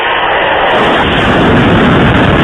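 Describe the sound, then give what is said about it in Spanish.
Explosions from an attack on a residential area of Kharkiv form a loud, continuous, heavy roar of blast noise with no clear separate bursts, filling the whole stretch without any talk. “Esto es un ataque en una zona residencial de Kharkov.”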